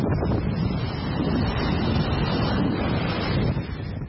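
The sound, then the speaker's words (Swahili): Strong wind and waves breaking on the Mediterranean shore at Alexandria make a loud, continuous roar and rush of surf, steady throughout with no voices. “Ni sauti za upepo mkali na mawimbi yanayochapa kingo za Bahari al-Mutawassit.”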